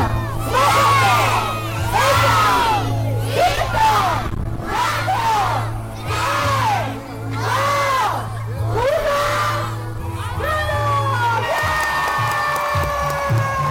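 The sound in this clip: A crowd shouts a countdown in Spanish for a Christmas tree and lights switch-on at an inauguration party with artificial snowfall. The rhythmic chanted numbers come roughly once per second over a steady low hum, then break into loose cheering and shouts.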